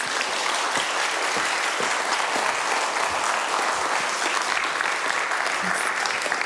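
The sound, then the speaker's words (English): Audience applause welcomes a speaker to the stage: dense, steady clapping from a crowd holds at an even loudness for the whole stretch, with no break or swell. “So would you put your hands together and please welcome Miriam Lyons.”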